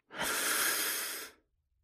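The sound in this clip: A single long, deep breath, drawn through the airway as a soft, steady breathy hiss lasting just over a second. It swells quickly, holds evenly and fades out, heard alone against silence.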